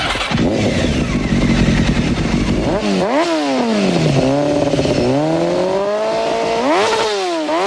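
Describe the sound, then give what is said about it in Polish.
Motorcycle engine revving loudly on its own, a steady roar giving way to several sharp rises and falls in pitch as the throttle is blipped repeatedly. “Bo hałas, bo głośno, a do tego jeszcze, no, może być niebezpiecznie. O akcji policji skierowanej do motocyklistów”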